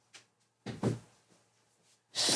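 A door is shut to keep a cat out: a few soft, quiet thuds and knocks, followed at the end by a louder burst of rough noise.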